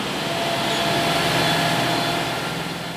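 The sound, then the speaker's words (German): A newspaper printing press starting up in a print hall gives a dense, loud mechanical roar, a continuous rattling drone with no pauses or breaks. “Noch hat die Maschine die Endgeschwindigkeit nicht erreicht. Doch die Zeitungsdruckerei-Symphonie erklingt bereits in einer derartigen Lautstärke, dass er nicht mehr zu verstehen ist.”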